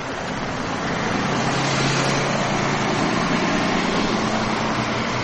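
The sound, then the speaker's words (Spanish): A city bus drones along a street beside a park: a steady, broad engine rumble mixed with road hiss swells slightly after the first second and then holds level throughout. “Un autobús de línea pasa por la calle junto al parque”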